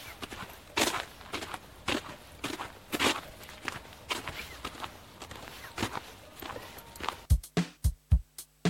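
Footsteps of a small group walking: many soft, steady steps in an even rhythm, ending in a few louder, heavier thuds.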